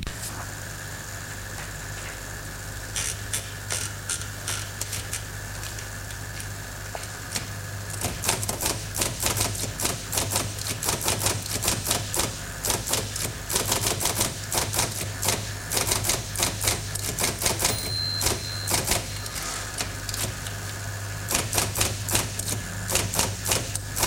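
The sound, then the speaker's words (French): A manuscript is typed on a mechanical typewriter. Sparse key strikes give way to a fast, dense, uneven run of sharp clicks that continues to the end over a steady low hum. “il l'a embauché pour taper à la machine son manuscrit”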